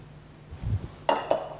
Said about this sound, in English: I have to get more bowls out, don't I?